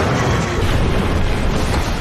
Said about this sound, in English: God takes Catherine and Doug up in the column of fire, and God destroys Doug in the firenado. He literally explodes.